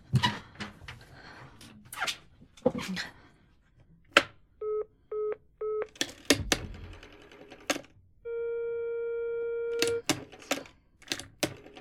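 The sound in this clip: A telephone number is dialled: sharp clicks, then three short electronic dialing tones, followed by a steady, even outside-line tone lasting about two seconds, with more clicks around it.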